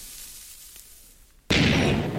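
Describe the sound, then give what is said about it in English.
A creeper explosion in a video game comes as a sudden loud burst after a quiet stretch, then a broad, rough roar that holds steady to the end. “Creeper explosion has been taken care of. There will be no more creeper explosions throughout this episode of OMG Craft.”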